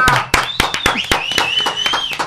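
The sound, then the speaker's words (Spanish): Scattered hand claps from a few people in a studio booth: many sharp, separate claps in an uneven rhythm, with a high, sustained whistle-like tone running over most of them. “Y en esta mañana bien especial, pues ya les quiero pedir un gran aplauso, por favor.”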